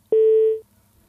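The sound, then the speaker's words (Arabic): A telephone busy tone follows a disconnected call. It is a single steady mid-pitched beep lasting about half a second, heard alone in quiet. “ألو يقول انقطع الاتصال.”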